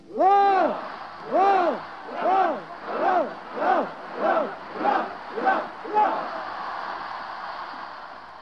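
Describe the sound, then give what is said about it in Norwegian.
A crowd shouts a ninefold hurrah for the fatherland at a 1945 Norwegian celebration, nine rhythmic, drawn-out cheers in close succession, each a little shorter than the last, then fading into a low crowd murmur. “Og med dette ønske vil jeg bede alle om at være med i et nifoldigt hurra for fædrelandet. Hip, hip, hip!”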